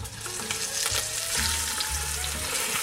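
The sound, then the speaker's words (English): Pork shoulder sears in a hot pan with a loud, steady, crackling sizzle throughout, and no talking. “I'm gonna add our pork shoulder to this pan and get a nice sear on it. So here we go, we're gonna drop it in.”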